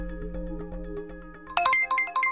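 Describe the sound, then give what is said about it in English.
Uber app ride-request notification chiming on a driver's phone. Low tonal background music plays first, then a bright, louder series of quick ringing chime tones bursts in. “That is the sound of the Uber app telling a driver that somebody wants a ride.”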